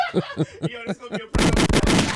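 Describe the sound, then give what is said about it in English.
Gunshot sound effects: a dense, rapid burst of gunfire like an automatic weapon, loud and rattling, coming right after a short stretch of a voice talking. “Yo, where's my gunshots?”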